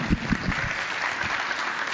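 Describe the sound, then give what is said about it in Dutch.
Steady applause from a group, a dense, even patter of many hands clapping that holds at the same level throughout. “Applaus.”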